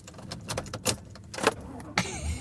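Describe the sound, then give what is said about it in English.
Keys jangling and clicking as someone fumbles to fit a key into a door lock, a handful of sharp metallic rattles coming in irregular bursts of moderate loudness. “Couldn't get the key in the lock.”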